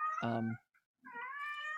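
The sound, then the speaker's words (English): A pet cat meows twice: a short, buzzy call, then a brief pause and a longer, clearer meow held to the end. “a cat. We have a cat.”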